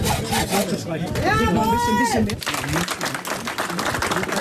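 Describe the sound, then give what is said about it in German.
Sawing open a roughly 70-year-old time capsule hidden since the 1950s in an old school's foundation: loud, continuous rasping strokes with a brief squealing whine midway. “wie hört sich's denn an, wenn man eine knapp 70 Jahre alte Zeitkapsel öffnet? Na, so.”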